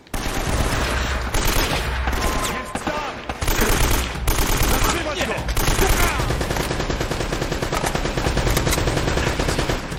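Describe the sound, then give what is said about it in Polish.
Machine-gun fire and rapid gunshots in dense bursts, forming a loud, nearly continuous barrage broken by a few short gaps. “Czego on tam strzela? Granat? Ale daleko. O, tego wysadziło.”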